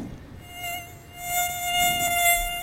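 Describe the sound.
Mosquitoes buzzing, a thin, continuous high whine that wavers and swells louder toward the end, heard alone.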